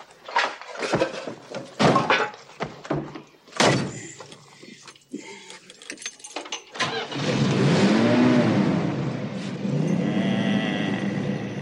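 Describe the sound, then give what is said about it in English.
A car engine starts and settles into a steady, loud idling rumble as it warms up. Before it fires, there are a few heavy door thumps and some shuffling movement. “Gotta let it warm up a little. You hear that, Sam? Just like a baby pussycat.”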